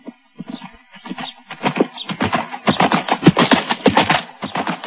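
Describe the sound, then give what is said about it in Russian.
A horse gallops out through a gate over stony ground. Its hooves beat in rapid, uneven pulses that start sparse and faint, then grow louder and denser toward the end. “Лошадь скакала так быстро, что камни летели у нее из-под копыт”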